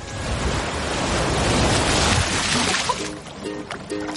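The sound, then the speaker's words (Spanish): Sea waves washing in from the open sea: a broad, rushing surge that swells, holds, then thins out and fades toward the end. “La ola arrastra los restos de la madera y a la tortuga mar adentro.”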